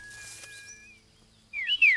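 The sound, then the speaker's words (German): Parent birds chirping back at the nest: a quiet, thin whistled call at first, a hushed pause, then a burst of brighter, louder high chirps at the end. “die Vogelmama und auch der Vogelpapa, sie sind wieder zurückgekommen. Komm, wir zeigen ihnen ihre Kleinen.”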